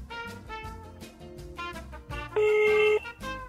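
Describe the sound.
A telephone rings once: a short, bright electronic burst, about half a second long, sounding over a busy backing of music.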